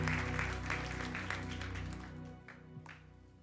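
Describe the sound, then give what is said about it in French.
A church audience applauds the worship team at a service, a faint, steady wash of clapping that slowly thins out. “Est-ce qu'on peut acclamer l'équipe de louange, s'il vous plaît?”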